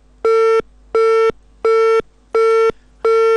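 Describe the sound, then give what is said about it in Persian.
Telephone busy tone after a dropped call: five evenly spaced, steady mid-pitched beeps with short silences between them, loud and alone. “متاسفانه تماس آقای عبدو قطع شد.”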